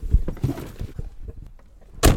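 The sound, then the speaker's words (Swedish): A door is shut with a single heavy thud near the end, after a stretch of softer rustling and handling noises. “Vi lyssnar på det här ljudet när man stänger dörren då.”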